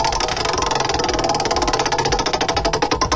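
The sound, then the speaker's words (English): A prize wheel spinning in a quiz game: a fast, steady train of ticking clicks over a low rumbling bed, with the ticks growing more distinct toward the end. “Let's spin the wheel and get today's category.”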